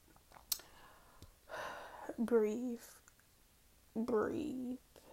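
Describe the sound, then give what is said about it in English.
A deep breath drawn in softly, then let out as a voiced, sigh-like exhale, followed after a short pause by another breathy sigh; quiet, with no other sound around it. “Breathe. Y'all just got that breath.”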